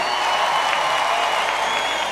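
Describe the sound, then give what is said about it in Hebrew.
Audience applause rings out to welcome Hasidic singer Yaakov Shwekey, a loud, dense, unbroken wash of many hands clapping together with a faint crowd murmur beneath it, sustained evenly throughout. “כולם אחד כפיים, יעקב שווקי!”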